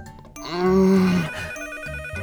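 A telephone rings with a single sustained electronic tone, bright and buzzy with rich harmonics, loud and alone before it fades after about a second.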